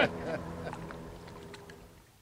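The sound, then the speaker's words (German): A motorboat engine runs again after being started, giving a low, steady droning hum with a tonal buzz that gradually fades and grows quieter toward the end. “Ja, also, jetzt geht das Motorboot auch schon wieder.”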